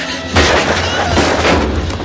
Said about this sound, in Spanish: Una bala le roza el hombro.